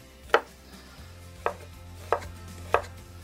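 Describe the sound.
A knife chops limes, red onions and tomatoes into cubes with four sharp, evenly spaced strikes separated by quiet pauses. No one speaks.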